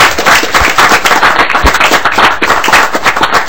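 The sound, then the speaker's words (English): A round of applause at a legislative committee meeting: many hands clapping in a dense, continuous patter that stays loud and steady from start to finish. “If maybe we should all give them a round of applause for all the”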